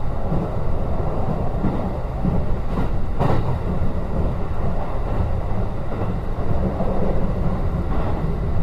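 Train wheels run over rails in a steady, loud, monotonous rumble, with a few faint clicks rising briefly out of the continuous roar.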